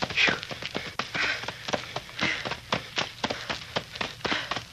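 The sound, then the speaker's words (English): Running footsteps crash through knee-deep dry leaves on a dark wooded path near a harbor, a quick, uneven stream of many rustling, crunching steps that stay fairly loud throughout, with no talking. “Running through leaves up to my knees. We'll be through them in a minute. I feel like I was trying to run on innerspring mattresses.”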